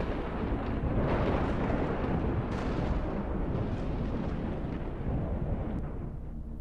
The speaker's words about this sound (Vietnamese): Khi đoàn người đi khuất thì có tia sét kéo dài đánh thẳng xuống sân nhà ông ngoại, nghe đánh đùng một cái đinh tai nhức óc.